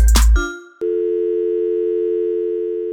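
A telephone hotline tone: a brief clattering burst cuts off, then after a short gap a loud, steady electronic tone holds unbroken to the end.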